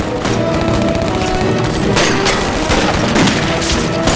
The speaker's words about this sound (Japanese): 連合射撃攻めだ。